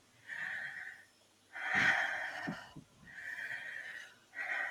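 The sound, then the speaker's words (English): Slow, deep breaths during a guided breathwork exercise: a few long, airy inhales and exhales of about a second each, separated by short pauses, loud and breathy with no talking. “And closing down your eyes, we'll go for 10 breaths.”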